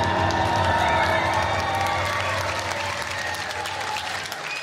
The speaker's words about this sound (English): Make some noise for yourself.